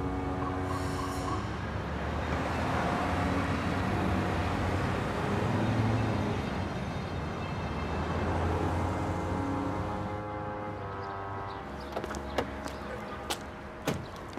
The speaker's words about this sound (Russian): На улице ездит транспорт.